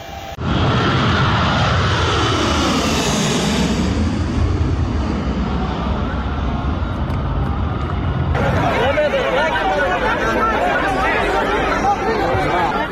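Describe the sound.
Engines of a departing plane roar loudly at a crowded airport, a sweeping, shifting jet whine over a heavy rumble, then giving way to dense crowd chatter and hubbub from people gathered near the aircraft.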